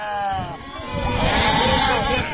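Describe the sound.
A herd of about 300 hungry livestock kept by nomadic herders bleats in overlapping, wavering calls. The sound is loud and continuous throughout.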